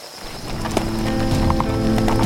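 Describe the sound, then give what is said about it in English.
Hooves of horses setting off after their riders mount up, a steady clip-clop of several animals that grows a little louder and denser as the group moves away. “Once Snell and his crew had mounted up, the group began to move toward the village.”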